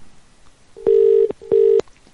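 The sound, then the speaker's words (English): UK telephone line tone: two steady, low electronic beeps of equal length with a short gap between them. The beeps are fairly loud and clear, with no voices. “It's the UK dial tone.”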